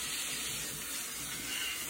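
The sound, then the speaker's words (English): Tap water runs steadily over blender blades during rinsing, giving a continuous, even rushing hiss with no talking. “You can kind of rinse it out. Rinse out the blades here.”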